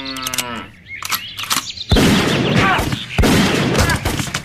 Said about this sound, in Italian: E poi mi ha sparato nei testicoli.